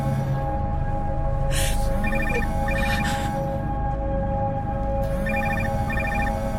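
A telephone rings in two pairs of short, bright trilling bursts, separated by a pause, over a steady droning background.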